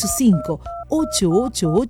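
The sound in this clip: Telephone keypad dialing tones in a Spanish-language radio advert for a rental in Ciudad del Este: several short, steady dual-pitched beeps interleaved with a voice speaking over them.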